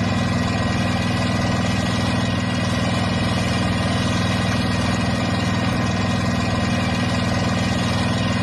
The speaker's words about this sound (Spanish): El sonido es el motor de una barca que nos puede llevar hasta Bang Bien, que es la localidad de la naturaleza y los deportes de aventura en Laos.